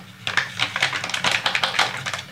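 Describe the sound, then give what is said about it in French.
Fork whisking egg yolks with grated parmesan: rapid, uneven clicking and tapping strokes in a brisk rhythm, with no talk. “Voilà, je fouette à la fourchette, au fouet, faites comme vous voulez.”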